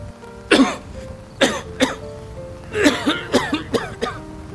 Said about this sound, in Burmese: နယံတုံးကအဲ့ဒီအချိန်မှာပဲပြင်းပြင်းထန်ထန်ချောင်းဆိုးလာပါတယ်